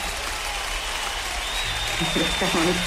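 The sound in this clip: Applause, a steady crackling hiss of many hands clapping at a moderate level, with a voice starting to speak over it toward the end.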